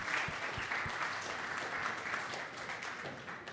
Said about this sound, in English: Hey, welcome, Daniel. We'd love to hear from you today. Let's give him a hand.